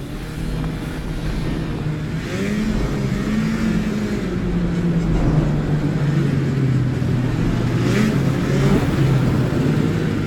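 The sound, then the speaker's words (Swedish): A vehicle speeding back on Svalbard in bad weather, its engine a loud, steady roar whose pitch wavers up and down throughout. “Tillbaka kör vi i rasande fart.”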